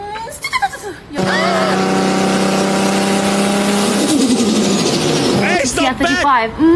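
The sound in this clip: A Nissan Skyline R34 engine revs and is held at high revs for about five seconds, a loud steady harmonic drone whose pitch sags slightly near the end, preceded by a brief voice.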